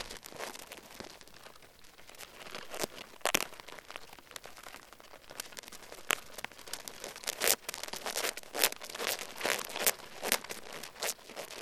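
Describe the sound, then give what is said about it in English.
Ants gathered on a leaf attack the tape holding down a microphone, producing dense, irregular crinkling ticks and scratchy rustles that run faintly throughout with scattered sharper clicks. “I'll play you another recording of ants all gathering on a leaf and basically attacking the tape that's holding down their microphone.”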